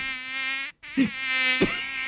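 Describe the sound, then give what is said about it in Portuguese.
Mosquitoes buzzing in a thin, high, whining drone that holds steady, breaks off for a moment, then resumes, with two brief louder bursts rising over the whine. “Os pernilongos vinham pra cima dele e os pernilongos tudo.”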